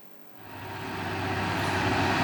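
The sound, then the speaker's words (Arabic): Trucks rumbling along the winding Hayja al-Abd road through the mountains of Taiz, Yemen; a low, continuous engine drone that swells steadily louder, with no voices. “كل شاحنة تعبر هذا الطريق تحمل أكثر من مجرد حمولة، فطريق هيجا العبد المتعرجة بين جبال تعز تحمل الغذاء والدواء”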